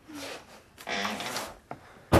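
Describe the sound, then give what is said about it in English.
A door being shut ends in a single heavy, solid thud after a stretch of soft rustling and shuffling noise. “Shut the door”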